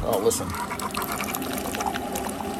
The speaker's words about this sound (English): While I'm waiting on this coffee to go, I had to put some more water in it.